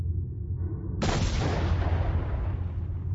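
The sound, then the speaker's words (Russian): Grenade explosion sound effect in a combat scene, a single sudden muffled boom with a long rumbling decay over a low background rumble. “Недолго думая, Артем кинул в щель гранату, а я притянул дверь на место.”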